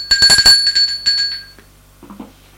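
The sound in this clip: A doorbell rings in a rapid burst of bright, high metallic dings lasting about a second and a half, then gives way to near silence with faint low sounds.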